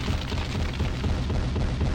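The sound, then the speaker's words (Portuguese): A bomb explosion sound effect named MOAB, after the most powerful bomb, rolls as a dense, deep rumble that stays loud and steady throughout without a clear single blast. “Então vamos lá, solta mais Moab aí, Matheus. Mais Moab aqui é homenagem à bomba mais poderosa do mundo.”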